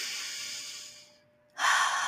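Slow, deliberate human breathing: a long, airy breath gradually fades out, a brief silence follows, then a second, louder breath starts abruptly and holds steady.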